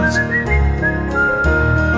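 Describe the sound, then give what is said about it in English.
Someone whistles a bright melody within a festive Christmas song, the tune carried over musical accompaniment with sustained whistled notes and short pitch glides. “Shopkeepers sweep as they whistle a song to themselves.”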